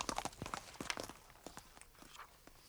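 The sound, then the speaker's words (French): Hoofbeats of a horse galloping with a rider come as many quick, sharp thuds in uneven clusters, loudest at first and growing fainter toward the end. “Vous entendez? Vous entendez? Mais c'est un cavalier. Oui, il galope. À tombeau ouvert.”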